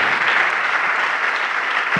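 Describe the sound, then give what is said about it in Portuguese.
A church audience applauding: loud, even, sustained clapping from a large group that fills the whole stretch without pause. “Vamos aplaudir ao nome do Senhor Jesus por cada vida que está chegando.”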